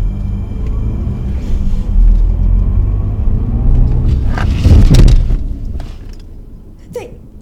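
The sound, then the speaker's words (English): A car drives off the road and crashes through a fence. A heavy engine rumble builds to a loud, harsh burst of noise midway, then fades, and a brief sharp sound follows near the end. “They just drove right through the fence, off the road. That noise, that crash. They've hit something.”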